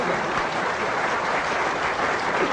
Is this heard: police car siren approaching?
no